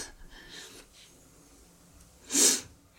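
A woman who has been crying sniffles. Soft breathy sounds lead up to one sharp, loud sniff near the end.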